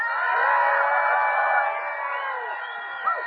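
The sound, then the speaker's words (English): Audience cheering loudly on cue during a group Bible story lesson, a sustained roar of many voices that holds steady and eases slightly toward the end. “then you guys are going to cheer as loud as possible”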